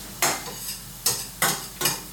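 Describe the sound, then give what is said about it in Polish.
A sauce is stirred in a pan: four scraping strokes rise out of a low frying hiss, the first alone and the last three coming in quicker succession. “Nastawię sobie zegar na jakieś 8 minut. W międzyczasie zajmę się z powrotem moim sosem.”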